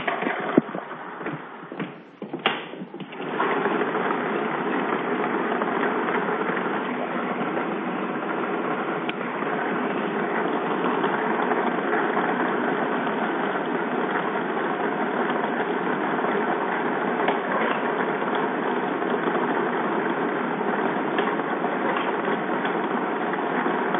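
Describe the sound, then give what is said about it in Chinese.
A lottery ball-drawing machine whirs as it starts for a Chinese welfare lottery 3D game draw. A few clacks at the start give way to a steady, even, loud rushing hum that continues unchanged. “好的，马上为您启动摇奖机。”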